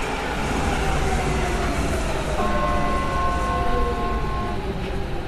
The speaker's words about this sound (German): Jetzt kommt doch schon die Bahn.